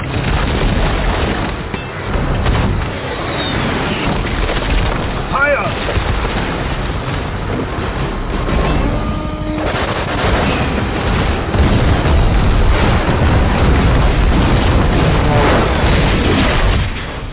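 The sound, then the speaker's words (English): Heavy artillery explosions in the mobile war video game Mobile Strike: dense, continuous booming rumble, loud throughout and swelling toward the end. “Bring in the heavy artillery. Build now.”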